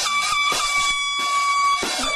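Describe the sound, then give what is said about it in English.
Air horns are blown to wake a child, giving a loud, blaring, sustained tone that runs through nearly the whole clip, broken by a few harsh noisy bursts. “What is that? Air horns?”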